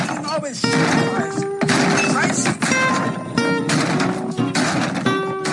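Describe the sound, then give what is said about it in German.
A table is smashed on a TV show set. Several loud, sharp crashing and shattering hits follow one another, mixed with voices. “Und deswegen mache ich jetzt hier diesen Tisch mal kaputt, ja?”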